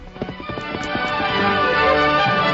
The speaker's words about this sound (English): A short time later, Dan Reed raced in the store and leaped to the saddle.